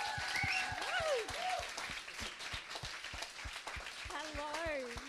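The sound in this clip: An audience applauds to welcome a speaker, with sustained clapping and a voice talking over it.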